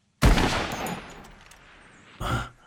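A gunshot fired while hunting in a video game: one loud, sharp blast with a long rolling decay that fades over about two seconds.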